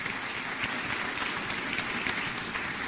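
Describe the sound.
Applause welcoming a preacher at Iglesia Bautista Betania in Quito, a soft, steady patter of clapping that holds evenly throughout, with no voices standing out.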